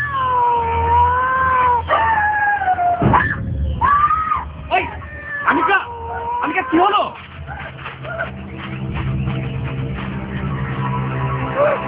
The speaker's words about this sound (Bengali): আমার তো মনে হচ্ছে আওয়াজটা এদিক থেকেই আসছে, কিন্তু কুকুর বিড়ালের কোনো চিহ্নও তো দেখতে পাচ্ছি না। দেখো দেখো কেউ আবার রেকর্ডার চালিয়ে দিয়ে গেছে কিনা।